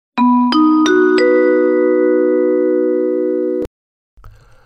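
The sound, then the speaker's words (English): Electronic sound effect called the oligarch alarm: four bright chiming tones, each stepping higher in pitch, pile into a sustained ringing chord that cuts off sharply after a few seconds. A faint, brief sound follows. “I don't know if you'll remember what that sound is, but it's been on before, and it's not the most enthralling thing I've ever come across. In fact, it's the oligarch alarm.”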